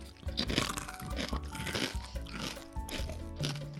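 Crunching and chewing on sweet, crisp pork sheet snacks: many brittle, crackling bites in an uneven rhythm, fairly faint, with no talk.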